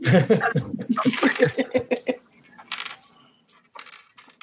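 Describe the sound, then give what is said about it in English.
Dice fall onto the floor during a tabletop role-playing game, a few light clicks and rattles. Voices and laughter come first, then the small clatter follows faintly. “dice vanished under my table, so I'm gonna have to hunt for it later”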